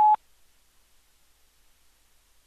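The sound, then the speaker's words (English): An answering machine tone signals the start of re-recording: a single short, steady mid-pitched beep right at the start, then near silence. “At the tone, please re-record your message.”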